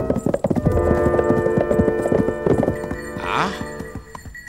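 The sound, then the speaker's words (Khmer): Horses' hooves clip-clopping as riders set off in haste, many sharp rapid hoofbeats, busiest in the opening seconds, over a low steady hum. “តោះពួកយើងឡើងជិះសេះប្រញាប់ចេញទៅ”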